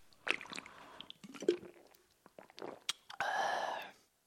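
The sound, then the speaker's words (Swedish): Drinking a Norrlands ljus non-alcoholic organic beer: wet, squishy clicks and gulping noises come in irregular bursts, followed by a longer, louder, breathy rush of sound near the end before it goes quiet. “Ta en, eh, testa ta en, en eh, Norrlands ljus. Alkoholfri ekologisk.”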